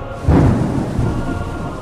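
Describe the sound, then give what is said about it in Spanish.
Thunder from a violent storm breaks with a loud, deep rumble that swells early on and then rolls on steadily to the end. “La tormenta irrumpió con fuerza. Los cristales de las pequeñas ventanas de ventilación temblaron.”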